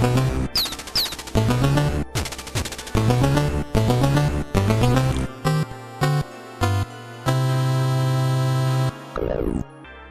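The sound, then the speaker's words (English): Music and sounds from the shooting puzzle game Bust a Move Plus on WiiWare: bright, bouncy electronic melodic phrases broken by abrupt short gaps, then a long held note and a quick falling sweep at the end. “Now, guys, this is the classic shooting puzzle game, Bust a Move Plus for the WiiWare.”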